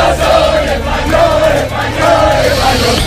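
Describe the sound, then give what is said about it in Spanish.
Huge crowd of football fans celebrating Spain's World Cup victory and its second star, roaring and chanting loudly. The cheering swells in repeated waves over a constant din. “El ruido de decenas de miles, de cientos de miles de aficionados eufóricos por la victoria de España en el Mundial, por esa segunda estrella que hay que bordar ya en las camisetas.”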